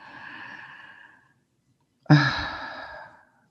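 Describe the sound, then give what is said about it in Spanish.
Deep breathing during a guided breathing exercise: a long, soft, airy breath, then a pause and a sharper, louder breath that starts abruptly and tapers off. “Vamos a respirar 16 veces. Inhalamos.”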